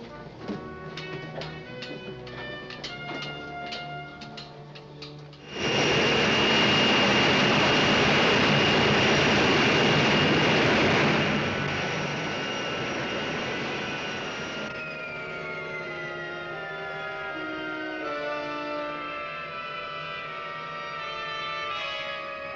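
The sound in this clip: A spaceship entering the atmosphere and landing, as a radio drama effect: a loud, rushing engine roar bursts in after a tonal passage, holds steady, then eases into a lower rumble with a falling whine.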